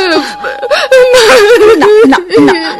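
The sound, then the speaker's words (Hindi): A little girl sobs and whimpers in a high, wavering, moaning voice. The crying is loud and continuous, with the pitch wobbling and breaking throughout. “पर बच्ची कांप कांप कर माँ की छाती से और चिपक गई, बोली कुछ नहीं, बस सुबकती रही।”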